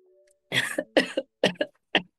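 Coughing after eating spicy soup: a run of several short, sharp coughs in quick succession, fairly faint, with brief pauses between the bursts.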